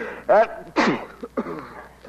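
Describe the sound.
A single sharp sneeze bursts out just under a second in, set among a few short vocal sounds.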